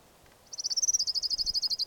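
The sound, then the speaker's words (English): An orange ground warbler sings a long, rapid trill of many evenly repeated high notes, fairly faint and steady, with no other sounds around it. “Orange ground warbler number one.”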